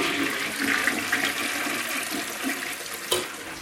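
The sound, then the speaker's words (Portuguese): A toilet flushing in a bathroom: a continuous rush and churn of water, fairly loud and steady throughout, with a brief surge near the end. “Deixa eu puxar a descarga também, deixa.”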